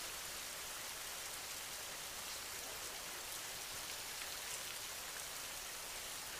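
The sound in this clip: Gentle rain falling steadily, a soft, even hiss of countless small drops with no pauses or distinct impacts, quiet and unchanging throughout.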